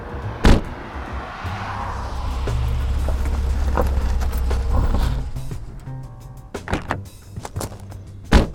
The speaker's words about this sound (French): Ouvrez votre portière, inspecteur.